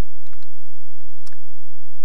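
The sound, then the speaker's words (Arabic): A phone line after the call is cut off: faint intermittent clicks and ticks on a quiet line, ending in a short electronic beep. “فصل الاتصال، الله أعلم ما به، شكله ما بيش تغطية.”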